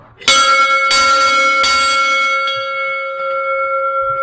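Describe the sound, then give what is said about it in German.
A large original church-style bell hanging in a wooden bell frame rings loudly with a few heavy strikes, each layering a bright clang over a long, steady humming tone that sustains throughout. “Das ist einer von den größten, was wir drinnen haben, mit der Originalglocke. Ich leite die jetzt einmal um.”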